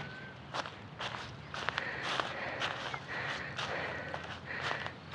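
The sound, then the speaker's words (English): Footsteps of someone hiking uphill outdoors, many crunching steps in a steady, slightly uneven rhythm, soft and close, with no talking. “We used to do these hikes effortlessly, and now I can't walk vaguely uphill before I'm winded.”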